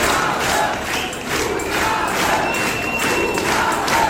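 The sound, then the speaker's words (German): A concert crowd shouts for an encore after a show of Kölsch songs, pop and rock. The massed voices form one loud, continuous roar that holds steady throughout. “Da wird Zugabe gebrüllt.”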